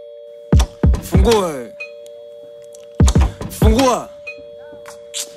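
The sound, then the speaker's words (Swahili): Doorbell ringing in two separate bursts, each a quick run of bright electronic chime notes that ring out and decay, with a steady faint tone humming underneath throughout. “Fungua. Ina maana usikii hii kengele”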